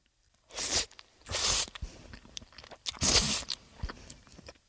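Slurping of curry-flavored cup ramen noodles mixed with egg: three loud, breathy slurps, with quieter chewing and small clicks in between.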